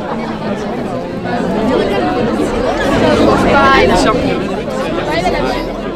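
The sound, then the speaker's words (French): Crowd noise at a high school blockade: a loud, dense babble of many voices talking and calling out at once, swelling slightly in the middle and holding steady throughout. “Mais c'est quoi tout ce bruit? Un blocage au lycée Bellevue.”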